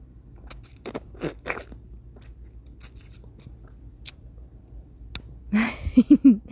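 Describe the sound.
Someone bites into food and chews it to taste it, making sparse, crisp crunches at irregular intervals, separated by near silence.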